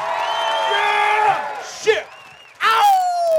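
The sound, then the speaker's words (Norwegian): An audience at a festival event cheers: loud whoops and yells swell together, drop to a brief lull, then burst out again in a fresh wave of high, shouting cheers. “Ja da, applaus, applaus!”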